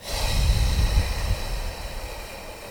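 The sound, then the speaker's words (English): A long breath blown out through the mouth during a breathing exercise, heard as a steady, loud rush of air with low rumbling turbulence that eases slightly toward the end. “The key is to inhale through the nose for 5, hold for 7, and exhale for 5 through the mouth by blowing out air and pushing the air out.”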